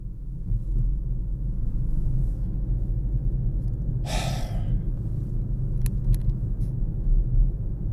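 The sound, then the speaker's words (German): Steady low road and engine rumble from a car on the A31 motorway at around 280 km/h runs throughout, with one sharp, breathy gasp midway. “ich fahre jetzt auf die A31, um da 280 zu fahren”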